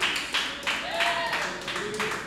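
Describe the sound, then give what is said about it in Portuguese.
Congregation clapping hands in praise at a church service, a steady rhythmic beat of roughly three claps per second, with a voice sounding over the middle. “Quem está com as mãos desocupadas, aplaudam ao Senhor.”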